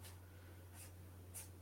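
A marker sketches on a board in three short, faint scratchy strokes spaced apart, over a low steady hum.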